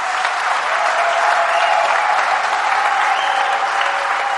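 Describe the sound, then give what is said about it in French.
A church audience applauding during a French-language worship service, a dense, even wash of clapping sustained for the whole stretch. “Est-ce que l'Église peut acclamer?”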